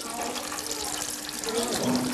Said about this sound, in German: Vor dem Essen immer die Hände waschen.